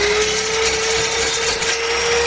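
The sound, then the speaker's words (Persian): Electric machine cutting wood in a carpentry shop, a loud continuous whine with a steady high tone over rough buzzing, without a break. “عبدالباقی در دوکان نجاریش مصروف برش چوب توسط دستگاه برقی.”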